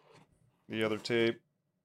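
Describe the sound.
Packing tape being peeled off a taped-up package: two short, loud screeching pulls one after the other, then silence.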